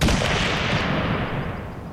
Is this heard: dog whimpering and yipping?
no